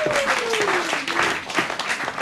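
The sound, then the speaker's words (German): Roaring applause from an audience welcoming a guest on stage, thick, steady clapping that fills the whole moment, with a brief tone sliding down in pitch near the start. “Und deshalb begrüßen Sie heute mit uns mit einem tobenden Applaus”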